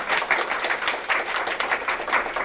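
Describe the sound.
Audience applause welcoming a speaker to the front at a talk about South India: a dense, steady patter of many hands clapping at once, moderately loud and continuous throughout, with no clear voices rising above it.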